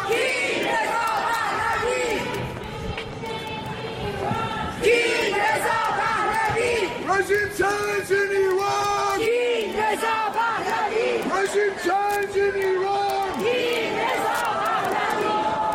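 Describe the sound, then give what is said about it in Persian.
Iranian protesters at a rally in Oslo chant in unison, many voices rising and falling together in a steady rhythm and staying loud throughout. “این تجمع ها با راهپیمایی در خیابان های اصلی اسلو ادامه پیدا می کند، جایی که معترضان با در دست داشتن پلاکارت ها و تصاویر از آزادی برای هموطنان خود سخن می گویند”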